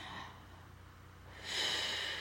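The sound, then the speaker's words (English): Slow deep breathing in and out, guided as a relaxation exercise: a soft, airy breath is followed by a louder, rushing breath of air in the second half, with no talking. “take a deep breath in and then out, and again breathe in”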